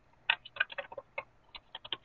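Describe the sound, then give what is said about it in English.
Typing on a computer keyboard: many quick, faint key clicks tap out an uneven rhythm, with short pauses between clusters and no voices. “Somebody seems to be typing.”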